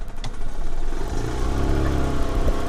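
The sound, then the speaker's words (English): A small yellow golf cart drives through rows of cherry trees in an orchard, making a steady, noisy motor hum and low rumble throughout, with no voices. “We hopped on a little yellow golf cart. We're just driving through rows and rows of huge cherry trees”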